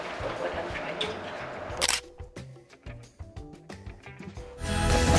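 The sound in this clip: A camera shutter snaps as a selfie is taken: one sharp click near the middle, then a few softer clicks, with people talking around it.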